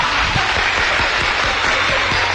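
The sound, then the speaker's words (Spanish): Audience applause at a lively show, a steady, dense wash of clapping that holds at an even, fairly loud level throughout without pause. “¡Un aplauso para ellos, que ahí están!”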